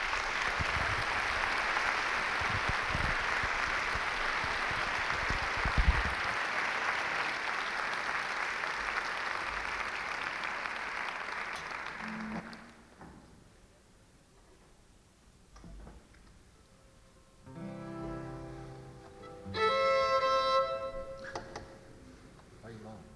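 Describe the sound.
Audience applause welcomes a fiddler and a guitarist at an evening concert. The steady clapping lasts about twelve seconds, then stops abruptly, leaving quiet with a few brief, softer sounds near the end.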